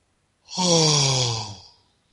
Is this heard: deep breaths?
yes